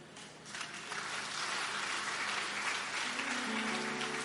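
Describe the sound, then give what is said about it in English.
Congregation clapping during a church sermon: a dense, steady wash of hands that swells in after a soft start and holds loud, with a sustained low tone joining near the end. “Are you clapping or you are doing something like clapping?”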